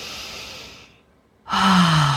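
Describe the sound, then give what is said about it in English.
A deep breath drawn in through the nose is followed by a short pause, then a loud, audible exhale out through the mouth with a low, voiced, sigh-like tone. “let's take some nice deep breaths and let's audibly exhale. So breathing in through the nose and exhaling out the mouth”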